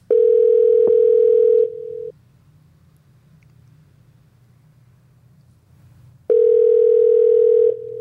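Telephone dial tone while a call is being placed: two long, steady, loud tones, each about two seconds, separated by a stretch of low background hum.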